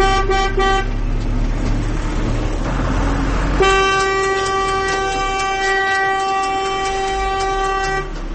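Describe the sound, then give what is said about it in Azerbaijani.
Vehicle horns blare in traffic as sustained, steady tones that hold for the whole stretch. Partway through, the horn pitch shifts, and a constant traffic rumble runs underneath. “Maşınların siqnal verməsi öz-özünə çox böyük problem.”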